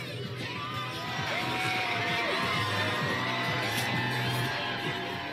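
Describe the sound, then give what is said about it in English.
Abortion rights opponents cheering outside the Supreme Court after Roe v. Wade was overturned: a loud, sustained crowd roar full of shouts, yells and high whoops, swelling slightly after the first second and staying strong. “Earlier today, abortion rights opponents cheered outside the nation's highest court.”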